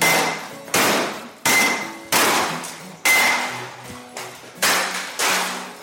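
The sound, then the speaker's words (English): A blacksmith's hammer smashing textile machinery such as gig mills, shearing frames and power looms lands a steady series of heavy, evenly spaced blows, each with a sharp metallic clang and a short ringing decay. “Enoch made them, Enoch shall break them. All right. Enoch made them, Enoch shall break them. It was time to smash.”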